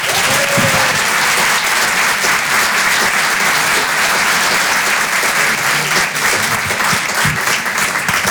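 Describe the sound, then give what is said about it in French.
Audience applause greets a comedian brought on stage at a stand-up comedy show: dense, loud, sustained clapping that holds steady for the whole stretch without pause. “Faites un maximum de bruit, s'il vous plaît, pour Aymeric Carré.”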